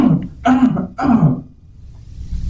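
A person deliberately coughs and clears their throat to demonstrate a lingering cough, giving three short, rough, voiced bursts in quick succession, followed by quiet.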